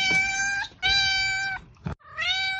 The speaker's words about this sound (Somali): waa bisad